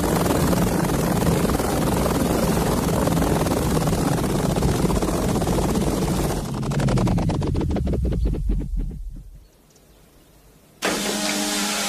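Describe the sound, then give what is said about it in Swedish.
A helicopter comes in to land, its loud sustained engine-and-rotor roar giving way to a rhythmic blade thumping that slows and fades to near silence, before a voice begins at the very end. “det är ingen fat, det är en helikopter.”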